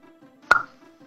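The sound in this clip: A single sharp pop as a drink can or bottle is opened, a short bright burst with a brief fizzing tail, standing out above a low steady hum.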